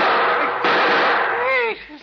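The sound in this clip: Gunshots in a radio drama: two loud, harsh blasts in quick succession whose noisy roar lingers before a voice breaks in and the sound drops away.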